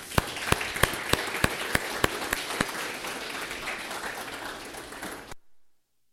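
Applause from a church audience welcoming a guest pastor at a celebration service. A few sharp, loud claps stand out early over a steady wash of clapping, which fades and ends after about five seconds.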